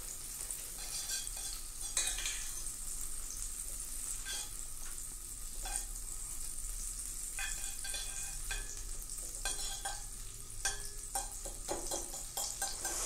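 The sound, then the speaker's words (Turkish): Fifty grams of butter melting and sizzling in a pan to start a kadayıf dessert: a steady crackling fry with scattered sharp pops and a few stirring scrapes, with no voices. “Öncelikle 50 gram yağımızı atıyoruz. biraz eriteceğiz.”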